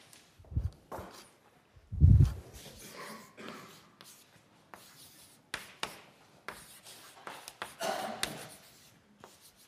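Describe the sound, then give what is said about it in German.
Scratchy writing strokes on a surface: a faint string of short, irregular scrapes and taps of varying loudness, separated by brief pauses. “ich schreibe das mal auf”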